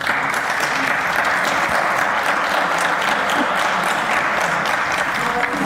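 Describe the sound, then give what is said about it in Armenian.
Opposition deputies in a parliament chamber give loud, sustained applause after a protest. The clapping stays dense and even throughout, with no clear voice above it. “Հայաստանի պաշտպանության նախկին նախարարի բողոքի ակցիան բուռն ծափահարությունների արժանացավ հենց ընդդիմադիրների կողմից։”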